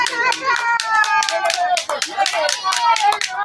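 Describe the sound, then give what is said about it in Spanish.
Spectators clapping at a youth baseball game in the Cucapah league's 11–12 age category, with brisk, uneven handclaps mixed with people talking and calling out at the same time. “¿por qué, ¿por qué aplauden tan bello? Van a terminar con las manos moradas”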